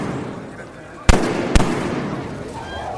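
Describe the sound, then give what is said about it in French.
Gunshots fired at a crowd in a square beside a basilica: two sharp, loud cracks about half a second apart cut through a constant hubbub of crowd voices. “3 coups de feu. Et une clameur d'effroi qui s'élève au-dessus de la foule.”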